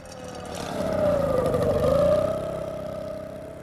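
A vehicle engine drives off from a harbour quay beside a ship. Its steady mid-pitched hum swells to a peak in the middle and then fades away, with no talk over it.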